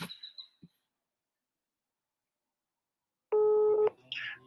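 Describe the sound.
A telephone is dialed: a single clear keypad tone sounds for about half a second, set among faint scattered clicks and noises in an otherwise quiet stretch.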